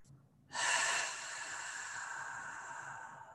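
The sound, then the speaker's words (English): A deep breath released during a guided breathing exercise: one long airy exhale that starts abruptly, peaks quickly, then trails off steadily for nearly three seconds, with no talk. “We'll take three deep breaths together here. So I'll invite you now to release the breath.”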